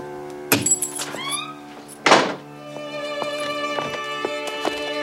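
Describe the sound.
A paper cone of roasted chestnuts smashes against a railing, producing two loud, sharp thunks with a brief crackling, breaking texture, separated by a short pause and followed by quieter background sound.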